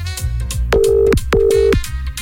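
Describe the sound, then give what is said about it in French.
Telephone ringback of an outgoing call: two long, even electronic rings in a row, each about half a second, sounding loudly over a rhythmic musical backing. “Sans plus attendre, sortez bien votre téléphone. Allez, c'est parti, on appelle.”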